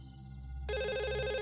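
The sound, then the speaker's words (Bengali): A telephone rings with a bright, steady bell-like tone that starts abruptly and holds evenly, fairly loud over a faint low background. “কদিন বাদে জিমের phone এলো।”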